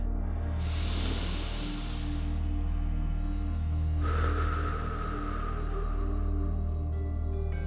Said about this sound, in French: Inspirez par le nez et expirez par la bouche comme ceci.